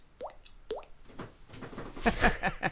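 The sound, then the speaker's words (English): A voice imitates a water drop by popping the cheek: two clear, hollow plops with a quickly rising pitch, followed by several softer, quicker pops blending into jumbled noise. “We get our second... cheek water drop.”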